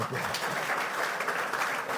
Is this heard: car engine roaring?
no